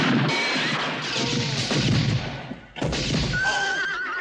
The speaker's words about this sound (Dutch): En het eerste wat je hoort is een paar die eraan komen. En dan wordt er geschoten.